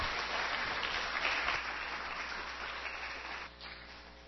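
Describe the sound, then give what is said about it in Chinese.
Children applaud their teacher in a classroom: a dense, steady clapping that holds evenly, then thins and fades toward the end. “你要给师父怎么样，就有人会知道说，哎，要给师父掌声，要替师父加油哦”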